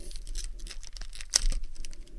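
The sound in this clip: Plastic wrapper tearing as a packaged item is opened: a steady run of crinkly rustling with one sharp, bright rip near the middle, then more crackling.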